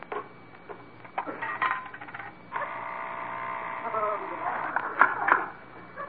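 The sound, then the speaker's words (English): A penny dropped into a coin-operated weighing scale: a few light clicks, then a steady mechanical whirring rattle with bright metallic clinks near the end, fairly faint. “Let's check this scale. Rochester, you get on. See how much you weigh. Okay. Let's see if I got a penny. Yeah, here's one.”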